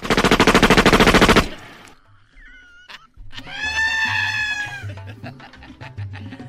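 A gunfire sound effect follows a firing squad command: a loud, rapid, evenly spaced machine-gun-like burst lasting over a second, then a pause and a rooster crowing with several harmonic calls.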